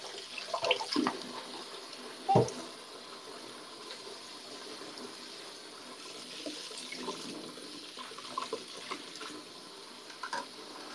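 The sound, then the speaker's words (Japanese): Washing up after making ramen under a running tap: a steady, soft rush of water runs throughout, with a few light clinks and knocks of dishes, one sharper clatter standing out near the start. “いらないものはさっさと洗ってます。”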